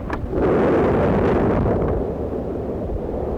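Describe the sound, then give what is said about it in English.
A taconite mine blast sets off 150 explosive-packed holes at once on a winter day. After a brief quiet moment a deep rumbling roar swells up and stays heavy and sustained, slowly easing toward the end with no voices. “600,000 tons of taconite have just been exploded, kicking up a bank of black smoke that stretches high into the winter sky. The simultaneous detonation of 150 explosive-packed holes”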